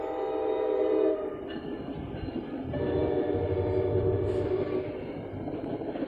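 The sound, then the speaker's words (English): A passing train gives a heavy, continuous rumble that holds steady throughout, with sustained ringing horn-like tones riding on top near the start and again midway. “Hold on, y'all, train coming again.”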